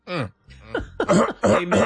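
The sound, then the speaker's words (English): Throat clearing during a church service: several rough, voiced bursts with short gaps between them, fairly loud and with no other sound around them. “Let me clear my throat.”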